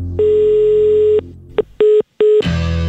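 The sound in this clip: Telephone tones sound while a call is being placed again: a long steady mid-pitched tone, a brief blip, then two short identical beeps, before a louder burst of other sound takes over at the end.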